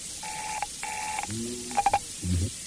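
Telephone ringing tone on the line after dialling a Bayswater number: two evenly spaced, steady tonal bursts, then a few quick clicks and a short, lower buzzing tone, all faint over a hiss.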